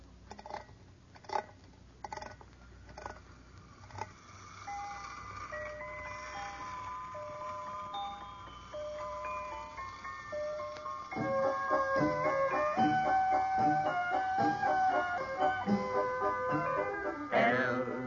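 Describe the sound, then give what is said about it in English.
A wind-up toy merry-go-round spinning and playing a tinkling music-box melody, a few sharp clicks at the start, then the tune grows fuller and louder in the second half. “First, you wind it up, and then you release the lever, and it spins around and plays music.”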